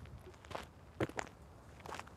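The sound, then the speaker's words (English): A few soft, crunchy footsteps of people walking outdoors around a bend on Northey Island, at an uneven pace and faint against a quiet background. “We're walking around this final bend that brings us back to where we landed on Northey Island by boat a few hours ago”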